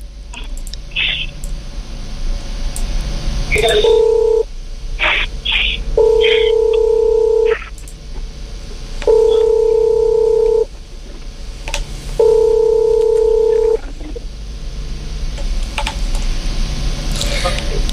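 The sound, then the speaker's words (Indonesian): A telephone call is dialed: a few short keypad beeps, then four long, steady two-pitch ringback tones with even gaps between them. A constant low hum runs underneath. “Oke, kita coba hubungi dulu ya adiknya siang hari ini.”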